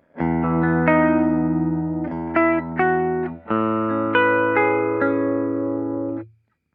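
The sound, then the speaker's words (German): Warm, clean electric guitar chords played through a profiled Leslie rotating speaker cabinet amp. A few sustained chords ring out one after another, alone and fairly loud, each held before the next is struck. “Ein Profil von einem Leslie-Kabinett. Also das original rotierende Speaker, natürlich ohne rotierenden Speaker geprofiled. Und das klingt so.”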